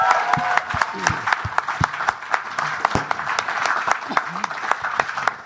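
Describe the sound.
Audience applause at a live show, greeting a band as it leaves the stage: dense, steady clapping with sharp individual claps standing out throughout.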